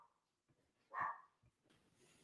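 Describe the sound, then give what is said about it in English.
A dog barks loudly in the background: one sharp, forceful bark stands out, with a few fainter short sounds before and after it. “Had just a temporary break owing to a dog barking extremely loudly and annoying me in the background.”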